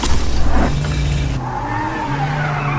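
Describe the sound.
A Kia car with a GDI engine revs in a loud, continuous roar with whining tones that shift in pitch, mixed with a squealing, skidding tire noise.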